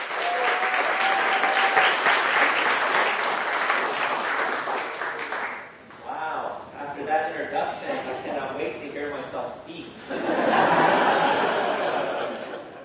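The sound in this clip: Audience applause welcoming a speaker: sustained, loud clapping that dips briefly near the middle, then swells again before thinning out.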